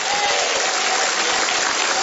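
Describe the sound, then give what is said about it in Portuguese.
Applause from an evangelical church audience, a dense, steady wash of clapping that holds at an even, loud level for the whole stretch with no talk over it. “Bate palmas, dá glória a Deus.”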